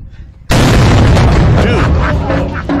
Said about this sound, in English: Dude, that's your grenade simulator. It is? Yeah, it's on the stick.